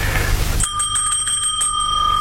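A hand bell rings to summon a servant: after a moment of low background sound, a rapid run of bright, high metallic rings continues steadily to the end.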